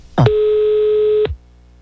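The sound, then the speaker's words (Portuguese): A telephone line tone sounds as a call is placed: one steady, mid-pitched tone holding for about a second, with a click at its start and end, and no talk. “Eu vou ligar agora, vou ligar pra Conceição.”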